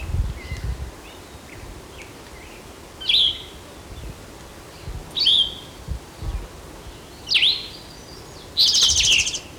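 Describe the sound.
A pileated woodpecker calls in several sharp, high bursts spaced a second or two apart, the last one a rapid series, over a faint insect buzz and low background noise.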